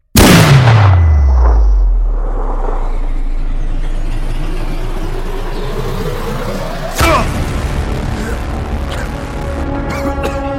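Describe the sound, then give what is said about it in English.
A gunshot aimed at a target: a loud, sharp rifle report with a deep, falling boom, then a steady low rumble and a second sharp crack near the end. No one speaks. “Target's down. Good shot”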